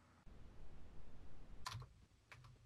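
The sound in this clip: Faint keystrokes as a short name is typed on a computer keyboard: a few soft, quick clicks arriving in small bursts over a quiet background hum.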